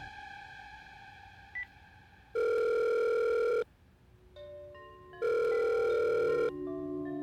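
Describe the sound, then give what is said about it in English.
Telephone ringback tone as a call rings through toward voicemail: two long, steady electronic rings separated by a pause, loud and alone, with a faint short beep before the first ring. “Okay, call back. Leave a message.”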